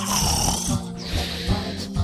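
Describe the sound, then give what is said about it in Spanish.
Dwarfs snore at night in several rasping, breathy snores in a slow rhythm. A thin high whistle rides over some of the breaths, and no talk is heard. “una noche, mientras los enanitos roncaban”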